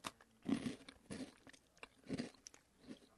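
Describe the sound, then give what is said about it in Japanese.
Crunchy biting and chewing of a matcha-flavoured potato snack, a few faint crisp crunches spaced apart with softer mouth sounds between them. “食べてみて。 いただきます。美 味しいのかな。”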